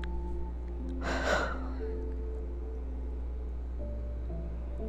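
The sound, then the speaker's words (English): One deep breath drawn in during a guided meditation, a short, breathy rush of air that swells and fades within about half a second, over a steady low hum and soft sustained tones. “gonna breathe in.”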